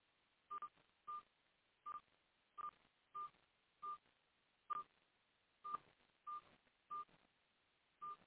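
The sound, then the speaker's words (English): Telephone keypad tones beep as a host PIN is entered on a phone conference line: many short, clipped DTMF beeps at irregular, roughly even spacing, thin and band-limited like phone audio, with quiet hiss between. “Please enter your host pin. When finished, press the pound key.”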